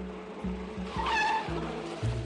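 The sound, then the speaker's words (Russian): A taxi car pulls up to the curb and stops right behind a Volga car, its engine rumbling low with a brief, high tire squeal in the middle. “К тротуару подкатило такси и стало сзади вплотную к его «Волге».”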